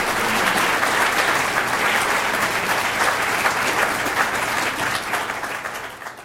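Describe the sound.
Audience applause welcomes a speaker before an evening talk on fish diversity. A dense, steady roar of clapping holds for several seconds, then tapers off at the end.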